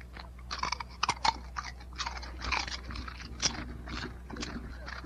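A dog crunching potato chips: many crisp, irregular crunches and bites over a low, steady hum.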